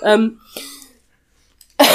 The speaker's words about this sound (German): Es tut mir leid für den Fall, dass ich huste, aber ob ich Corona habe, erfahren Sie später.